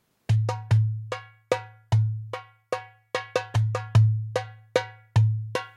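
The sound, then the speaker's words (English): A dumbek, a Middle Eastern pottery drum, played alone: many sharp, ringing strokes over a low resonant tone, in an uneven rhythm with some quick clusters of hits. “This is called a dumbek. It comes from the Middle East. It sounds like this.”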